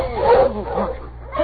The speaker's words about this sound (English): stop that dog team. Right. Oh, you huskies!